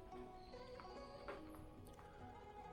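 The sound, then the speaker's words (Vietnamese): Hooves of a horse pulling a carriage at a quick pace: a steady, continuous clip-clop that stays faint and even throughout, with no talk. “Xe ngựa nhanh chóng di động.”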